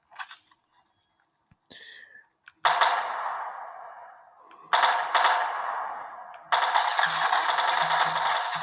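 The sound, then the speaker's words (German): Gunfire sounds in a shooter video game as a few loud, dense volleys, each leaving a long fading tail. A few faint mechanical clicks come before the first volley. “Digga, da hinten wird geballert.”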